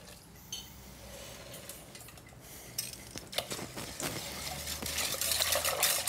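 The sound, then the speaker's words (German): Apple juice being extracted with a juicer on Windberghof farm in the Black Forest. Metal and dish clatter mixes with sloshing liquid, and the sound grows busier and louder toward the end. “Windberghof im Schwarzwald ist mittlerweile der Entsafter im Einsatz. Ist auf jeden Fall eine Menge Saft drin.”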